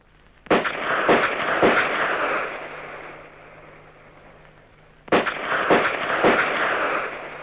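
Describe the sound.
Gunshots at a police academy shooting practice: two bursts of three sharp, loud reports each, separated by a quieter pause, with a dense rumbling noise carrying on between the shots.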